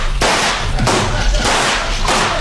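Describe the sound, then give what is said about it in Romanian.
Gunshots fired at a crocodile climbing onto a raft come as a few loud, sharp cracking blasts, each leaving a noisy wash before the next. “Trageți! E timpul să tragem, domnule! Un crocodil a reușit să se urce pe plută!”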